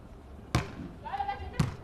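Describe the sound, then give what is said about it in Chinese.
Two sharp, punchy hits on the ball land about a second apart during a serve in a beach volleyball match. A voice talks between the impacts. “好发球，这球呢打了一二次球，也是出其不意。”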